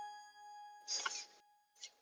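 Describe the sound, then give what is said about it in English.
A bell dings once, and its steady ringing overtones sustain faintly through the whole clip while a couple of short, breathy noise bursts pass over it. “I'll wait for the bell.”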